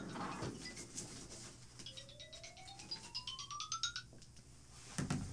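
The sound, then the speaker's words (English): A mobile phone ringtone sounds as one faint, gliding tone that climbs steadily in pitch for about two seconds, with bright chirping overtones above it. “Excuse me, just a moment, that's my phone.”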